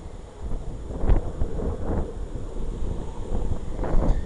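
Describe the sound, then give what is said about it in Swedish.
Breeze blowing outdoors, buffeting the microphone as a steady low rumble with a few stronger gusts and no talk. “Ja, det fläkte på rätt skönt här då faktiskt.”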